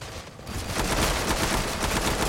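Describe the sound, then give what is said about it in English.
Video-game gunfire: dense, rapid bursts of shots packed tightly together, staying loud and steady for the whole stretch, with no talk. “He shoots, he kills.”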